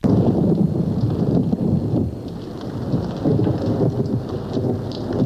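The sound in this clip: A thunderstorm with heavy rain during a fight in the mud: a steady, loud wash of rain hiss over a continuous low thunder rumble, with no voices.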